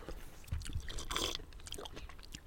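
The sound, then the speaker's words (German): Someone chews an anchovy, with soft, wet squishing and small smacking bites repeating unevenly over a couple of seconds, quiet and without talk. “du hast noch einen Anchovy gegessen”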